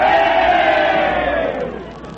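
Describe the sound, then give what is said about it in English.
Crowd cheering at a football game for the Meatball side: a dense, steady roar of many voices yelling together, loud for most of the stretch before easing off toward the end. “And now, the Meatball cheering section. Yay, Meatball!”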